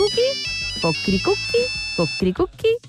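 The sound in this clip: A telephone ringing tone while a call is being placed: a steady high electronic tone that holds for about two seconds. Short melodic, voice-like bursts are layered over and after it.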